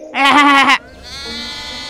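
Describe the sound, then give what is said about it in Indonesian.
A lamb bleats once, a loud, wavering cry of about half a second, followed by a faint steady high hum. “Apalagi anak biri-biri yang terus bawel dan mengembik.”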